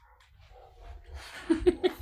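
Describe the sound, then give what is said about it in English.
Dogs bark in an agitated outburst, a quick run of about four sharp, clipped barks near the end after a low, quiet stretch with a faint rumble. “Sorry, I just shut my window because my dogs are freaking out at something.”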